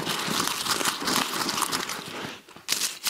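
Paper crinkled and crumpled by hand, a dense rustling crackle that runs steadily for about two seconds, dips briefly, then returns in a couple of sharper crinkling bursts at the end.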